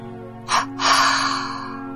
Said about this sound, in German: Halte für einen Moment den Atem. Dann atme auf zwei Stöße lösend wieder aus und lasse die Körperspannung dabei